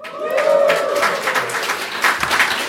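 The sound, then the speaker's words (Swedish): A live audience at Pophouse on Kungliga Djurgården cheers and applauds, with steady, dense clapping and scattered shouts at a fairly loud level. “Och idag spelar vi in veckopanelen live här på Pophouse på Kungliga Djurgården inför en publik som när den är på förväntansfullt fredagshumör låter så här.”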